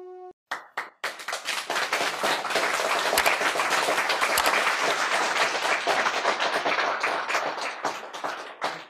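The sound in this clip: Hands clap in an audience after a talk on yoga: a few separate claps at first, then dense, lively applause that holds strongly and thins out toward the end.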